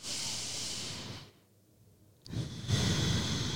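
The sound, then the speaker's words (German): A deep breath taken during a calming breathing exercise: two long, soft, hissing rushes of air with a quiet pause of about a second between them. “Ich persönlich finde es total schön, einen tiefen Atemzug zu machen. Mach mal gerne mit.”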